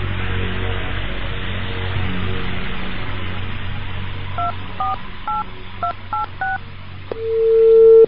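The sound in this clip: Touch-tone beeps as a phone number is dialed, a quick run of short electronic tones at changing pitches, followed by one longer steady tone that swells in loudness, all over a constant low hum.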